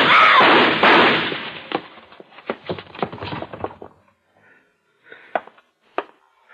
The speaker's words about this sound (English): What were those shots?